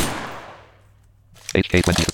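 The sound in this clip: An M240 machine gun fires in a video game, giving a sharp, loud blast whose noisy tail decays over about a second before someone starts talking.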